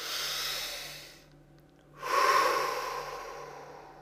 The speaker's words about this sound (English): Take a breath.